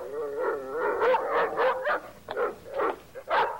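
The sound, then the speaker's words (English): A dog barking at a tall plant, giving a rapid string of whining, tonal barks and yips with a howl-like edge. The barking is fairly loud and continues throughout. “Why is he barking?”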